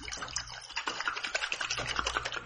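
Used motocross front fork oil, six months old with sediment settled at the bottom, sloshes as its bottle is shaken. Quick, rhythmic liquid pulses repeat at a fairly faint level.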